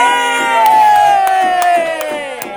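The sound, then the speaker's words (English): A studio audience cheers loudly in a sustained, tonal whoop that slowly sinks in pitch, punctuated by a few sharp, regular claps. “This studio audience is hopping today.”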